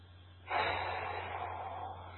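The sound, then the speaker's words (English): One deep inhalation, a soft, airy rush of breath that swells quickly and then holds for more than a second, heard alone and fairly faint. “So I'm just taking a breath”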